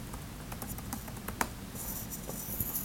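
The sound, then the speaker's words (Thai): Computer keyboard typing as a username is entered at a login screen: a few light, irregular key clicks, faint and unaccompanied. “ผมก็ต้องพิมพ์ user เข้าไปเองครับ user A นะครับ”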